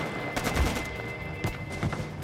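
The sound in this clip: Gunfire rings out as commando members scatter near a river crossing. A few sharp shots cut through a dense, continuous roar of noise.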